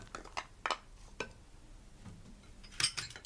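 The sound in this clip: A utensil clinks against a pot as hard vegetables are mixed together, a few sharp, quiet taps spread out, with a brighter clink near the end.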